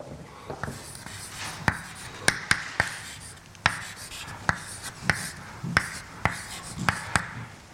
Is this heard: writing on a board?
yes